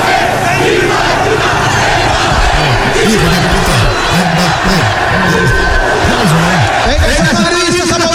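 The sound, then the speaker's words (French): Real Madrid supporters chant loudly in celebration after winning the Champions League, a dense crowd singing a rhythmic, repeated chant that rises and falls in steady phrases throughout. “c'était le chant des Madrilènes.”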